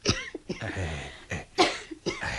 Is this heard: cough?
yes